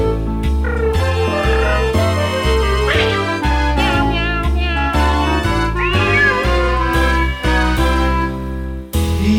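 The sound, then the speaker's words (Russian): Cats yowling and meowing at a basement jazz concert: loud, continuous cat cries and caterwauls ride over a steady, rhythmic musical backing with a regular beat, and no speech is heard. “Коты вопили, танцевали, и до утра звучал в подвале подпольный шазовый концерт.”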